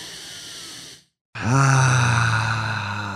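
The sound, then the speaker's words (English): A deep breath drawn in as a steady, breathy hiss, followed by a brief silence and then a long, loud, voiced sigh-like exhale. “Let's take a deep breath.”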